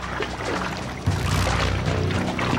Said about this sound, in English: swims across a backyard pool.